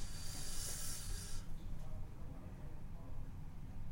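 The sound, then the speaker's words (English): A sharp intake of breath during a cricket quiz. A hissing, airy rush lasts about a second and a half and then cuts off, leaving a faint, quiet background. “I like the intake of breath and the suspense there.”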